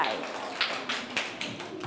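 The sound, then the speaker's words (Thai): Sharp claps from classroom children applauding a classmate come as a few separate bursts rather than steady applause, with faint murmuring voices around them. “ถูกต้องปรบมือให้เพื่อนหน่อยค่ะ”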